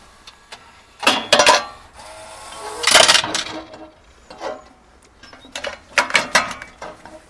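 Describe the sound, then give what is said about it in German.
Coin dropped into a deposit vending machine that dispenses magnifiers: a series of bright metallic clinks, rattles and mechanical clatter, with several loud bursts spread over about seven seconds. “So, da haben wir den Automaten Lupen gegen Pfand. Dann schmeiße ich jetzt mal.”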